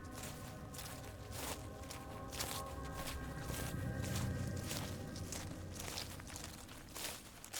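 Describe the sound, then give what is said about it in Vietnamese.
Faint footsteps inside a slaughterhouse, a steady series of many treads over a low rumbling background, with no talking. “Đúng lúc đó, từ đằng sau lưng của hắn có tiếng bước chân.”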